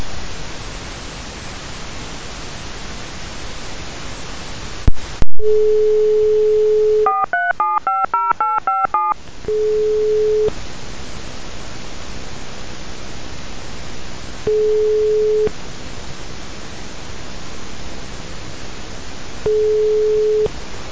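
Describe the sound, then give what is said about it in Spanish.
Telephone line tones from a failed, cut-off call: a click and a steady tone, then a quick run of many dialing beeps, followed by a single flat tone repeating three times at even intervals over a hiss. “Se corta la llamada, no sé qué pasa con la línea.”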